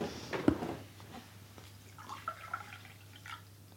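A person pauses to drink water, with faint liquid and swallowing sounds and a few soft clicks over a quiet low hum.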